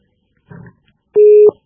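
A telephone busy tone after a dropped call: one loud, steady electronic beep, preceded by a brief, fainter burst of sound.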